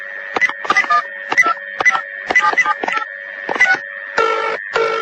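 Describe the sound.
A telephone rings in repeated electronic bursts of steady tone, fairly loud, with no talk over it.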